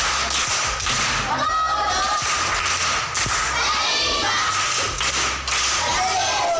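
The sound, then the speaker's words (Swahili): Applause for a primary school pupil who answered a quiz question, a loud, continuous mass of clapping mixed with crowd noise and thudding hand beats, with voices heard in it. “Makofi kwa shangazi.”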